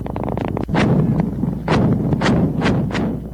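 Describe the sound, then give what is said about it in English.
American missiles are fired at a mosque complex in Fallujah, west of Baghdad, producing several heavy, booming blasts at irregular intervals over a continuous low roar. “The sound of American missiles fired at a mosque complex in the town of Fallujah, west of Baghdad.”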